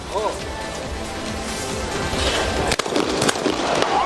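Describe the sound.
Two sharp shotgun blasts at high-house doubles clay targets, left then right, ring out about half a second apart in a shooting competition, following a stretch of steady background noise and murmur.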